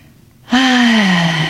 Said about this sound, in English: let's all practice right now, taking that deep breath from our bellies, from our belly buttons, big breath in,